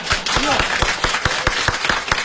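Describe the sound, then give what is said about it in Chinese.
Audience clapping at a Chinese crosstalk comedy performance keeps a steady, rhythmic beat under talking voices. “我看大家得鼓鼓掌，祝贺您旗开得胜啊！”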